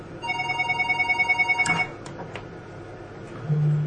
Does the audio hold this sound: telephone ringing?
yes

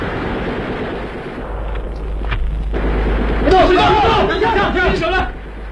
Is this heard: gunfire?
yes

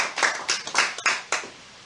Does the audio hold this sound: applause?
yes

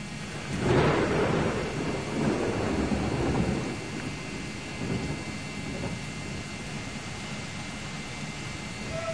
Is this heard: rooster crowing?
no

